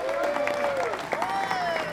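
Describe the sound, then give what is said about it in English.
Crowd applause for a bluegrass radio host at a live show, scattered clapping and some cheering, with a sustained voice carrying over it. “Big round of applause for Tom Henderson.”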